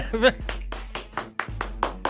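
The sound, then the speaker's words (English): Hand clapping: several sharp claps in a steady rhythm, with a voice heard briefly at the start. “Why are you clapping for that?”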